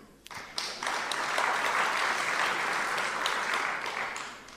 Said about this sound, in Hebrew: אפשר למחוא כפיים בהחלט, כן.